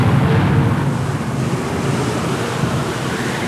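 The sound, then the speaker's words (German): Storm noise from a radio drama, a loud, steady rushing roar with a deep rumbling low end that runs unbroken throughout, without distinct separate claps. “Donnerschläge ertönten aus dem Sturm.”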